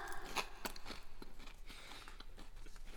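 Crunchy chewing of a bite of bread topped with ground fermented soybeans, many crisp, irregular bites and crackles spread across a few seconds with no talking.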